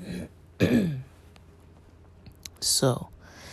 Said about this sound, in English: Sorry, my throat is kind of dry or something. Got a weird little cough.